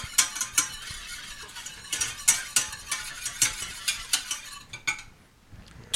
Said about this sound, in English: And then... whisk that all together.